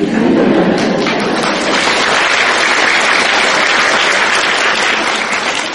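Audience applause at a Buddhist teaching, a dense, loud, continuous wash of clapping that holds steady from start to finish.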